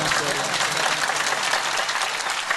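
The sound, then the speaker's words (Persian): Audience clapping along at a celebration where a song is being performed, a dense, steady wash of hand claps at an even level through the whole clip. “حالا دست زدن داره،”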